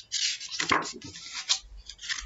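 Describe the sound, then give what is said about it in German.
Scraping at the bottom of a frying pan on a stove: a few rough, scratchy strokes of metal rubbing, moderately loud and irregular, with no talking. “Sie kratzt unbekümmert am Pfannenboden.”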